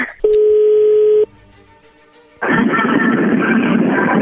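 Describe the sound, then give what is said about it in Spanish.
A telephone being dialed to place a call: a steady electronic tone lasts about a second, then a short quiet gap, then a loud continuous line hiss. “Bueno, vamos a llamarle a Lucio.”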